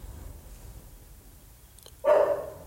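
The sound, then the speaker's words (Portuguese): A dog gives one sharp, loud bark near the end, after a long stretch of faint, low background noise. “Eu ia falar parou, ele latiu. Acho que agora parou.”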